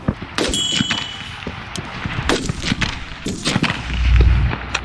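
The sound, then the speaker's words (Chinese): Rapid precision pistol shots crack at a shooting range, as a shooter fires, quickly re-aims and fires again. Many sharp, loud reports come in an uneven rhythm, with metallic ringing between them. “重新瞄准目标，再次激发。”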